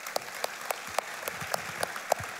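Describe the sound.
An audience claps to welcome a speaker at a morning service, with sparse, fairly faint claps rising in a loose, steady rhythm rather than a dense roar.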